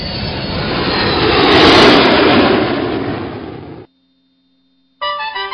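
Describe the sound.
A passenger airliner in flight gives a broad engine roar that swells toward the middle, then fades and cuts off abruptly. After a short silence, a brief different sound begins.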